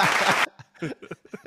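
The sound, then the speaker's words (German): Applause from a small group fills the first half-second, a dense burst of clapping that cuts off sharply and gives way to talk. “Applaus auf die”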